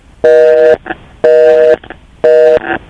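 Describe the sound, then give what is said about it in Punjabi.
A telephone busy signal after a dropped call: three loud, steady buzzing tone bursts, evenly spaced with short quiet gaps between them. “I think Banarasi ਸਾਹਿਬ ਆਪਕੀ ਜੋ line ਹੈ ਵੋ ਮੇਰੇ ਖਿਆਲ ਸੇ drop ਹੋ ਗਈ।”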